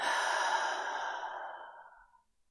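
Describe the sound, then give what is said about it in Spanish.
A deep exhale through the mouth during guided breathing, one long breathy sigh that starts full and gradually thins and fades out over about two seconds, heard alone. “Inhala nuevamente un poco más profundo. Exhala por la boca.”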